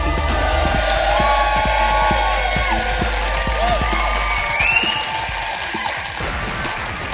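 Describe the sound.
A live audience in Tunbridge Wells cheers and applauds as a comedian takes the stage. The clapping is dense and sustained, with whoops rising over it before the applause tapers slightly toward the end.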